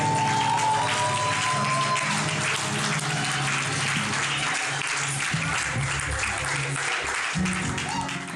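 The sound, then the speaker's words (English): Applause from a church audience welcoming a pastor to the front. Dense, steady clapping fills the whole stretch, with a voice and some low tones underneath. “Can we jam our hands together as we welcome Pastor Dami?”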